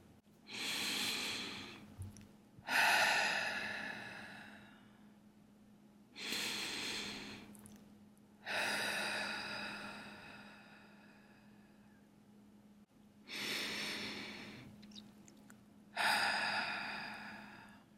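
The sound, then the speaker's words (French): Slow, deep breathing during a guided meditation: three unhurried cycles of long inhales and exhales, each breath a soft, airy rush separated by brief pauses, with no talking. “Ouvrez complètement votre cage thoracique et vous allez faire grandir cet espace en respirant à partir de là.”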